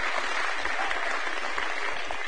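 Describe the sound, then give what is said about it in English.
An audience applauding first-time visitors during a church service, a full, steady round of clapping that holds at an even level throughout. “So if you are for the first time visitors, raise your hand up right now and we'd like to give you a big round of applause.”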